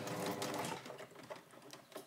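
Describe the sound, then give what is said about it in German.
Sewing machine stitching a fold on stretch jersey with a stitch other than plain straight stitch, a steady buzzing whir that runs strong at first, then continues lighter and more uneven. “Jetzt mache ich die nächste Falte. Also es ist ja eigentlich jetzt immer wieder das gleiche. Am Anfang schon vernähen. Aber das ist ja nicht der normale Geradstich, ne, Anna?”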